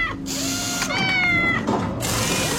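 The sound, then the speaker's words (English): A cat meows in drawn-out, wavering cries over steady mechanical tool noise suggesting car repair, with whirring and ratcheting sounds running throughout at high volume and no talk. “Here's a cat fixing a car.”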